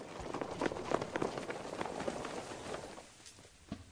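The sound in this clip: Many running footsteps from men in a cross-country race at a training centre pound in a fast, dense patter, steady at first and then thinning and quieter toward the end.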